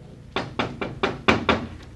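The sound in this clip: Knuckles rap on a house door in a quick, even series: six sharp, hollow knocks followed by a fainter seventh, with no voices.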